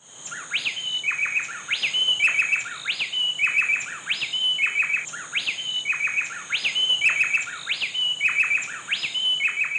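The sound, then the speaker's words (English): Two bay wrens call back and forth in an antiphonal duet, a female and a male trading bright, high chirping phrases in a quick repeating rhythm, with many clear phrases over the whole stretch and no voices. “Dr. Nigel Mann recorded these two bay wrens doing a little call and response”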